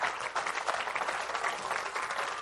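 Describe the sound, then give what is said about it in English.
A church audience claps together in praise, a dense and steady patter of many hands that holds evenly for the whole stretch with no voices on top. “Give the Lord a hand clap, Pastor.”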